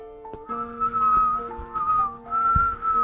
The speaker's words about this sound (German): Draußen pfiff der Wind.